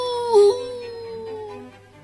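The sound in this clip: Wolves howl at the moon beside a wooden cabin: a long, sustained, fairly loud howl that glides slowly downward in pitch.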